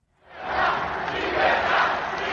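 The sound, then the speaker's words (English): A crowd roaring and cheering at Javier Milei's presidential swearing-in in Buenos Aires, Argentina. A dense, loud roar rises quickly from near silence and holds steady with slight swells. “Javier Milei was sworn in to huge applause, chants of yes he can and freedom from those who voted for him.”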